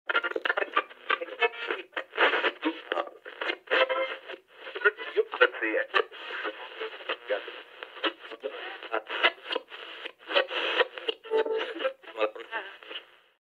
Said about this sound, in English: that fuzz you get when you change the dial on a radio channel?